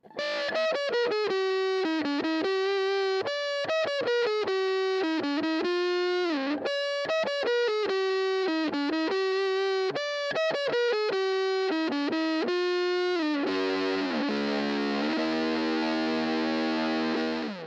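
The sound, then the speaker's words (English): Electric guitar plugged directly into a Dunlop FFM3 Fuzz Face fuzz pedal plays a repeated single-note riff with thick harmonics and sustain, then ends on a fuzzy chord that rings out and slowly decays; no voices. “if I take this Dunlop FFM3 fuzz face and I plug the guitar directly into it, it sounds like this.”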